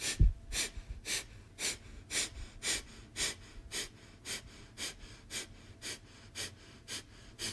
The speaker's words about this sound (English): Take an inhale and start over.